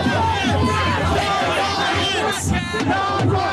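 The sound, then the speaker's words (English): Protesters at the Seattle WTO demonstration chant "no violence" outside: a large crowd shouts in loud, sustained unison with overlapping voices and a rough, continuous roar. “And then everyone started chanting, as you might be able to hear them outside right now, no violence.”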